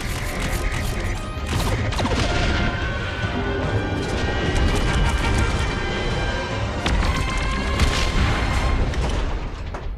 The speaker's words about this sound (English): Phasers armed and ready, Captain. Locking on target. Fire!